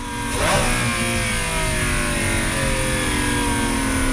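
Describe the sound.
A car engine revs as the driver downshifts into first gear while approaching a traffic light. A brief rising rev blip sounds near the start, then a steady, loud engine drone with strong low harmonics continues to the end.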